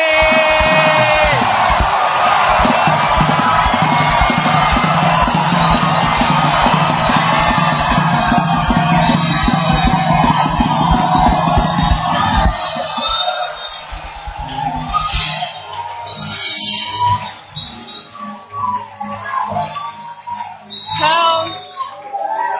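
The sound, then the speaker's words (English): A church audience at a prayer service claps and shouts praise. Loud whoops and bellowing voices ride over brisk, rhythmic clapping for about twelve seconds, then the noise thins into scattered voices and shouts. “To give the Lord a mighty clap offering. Why don't you add a shout of”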